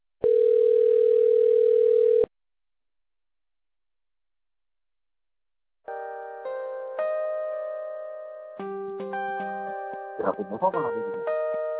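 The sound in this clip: A telephone ringback tone plays while a customer-service call is connected to an agent: one long, steady, pure tone, then silence, followed by a synthesized melody of layered electronic notes.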